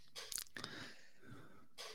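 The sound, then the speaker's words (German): Crunchy chewing of Mini-Numeros, sugar-crusted marzipan sweets, with a few sharp crunches early on, then softer, quieter mastication. “Was isst du da? Mini-Numeros. Marzipan mit Zuckerkruste.”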